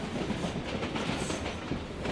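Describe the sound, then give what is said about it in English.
Inside a moving train carriage in India, a steady, loud rumble and rattle fills the air, with a faint rhythmic clickety-clack of wheels on rail and no one talking. “I'm back on a train heading back to Churchgate, back to the West End Hotel.”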